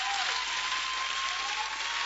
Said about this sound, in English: Our hand clap is so weak. Let's give a better hand clap unto the Lord.